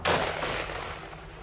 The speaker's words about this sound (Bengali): পর মুহূর্তেই শুনলাম একই সঙ্গে দুজনের পিস্তলের গর্জন।